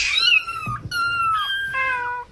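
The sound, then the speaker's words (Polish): Cat meowing: a few drawn-out, high, tonal meows with bending pitch, separated by brief pauses and clearly heard on their own. “Kotki? Ty? Bo są słodkie, milutkie.”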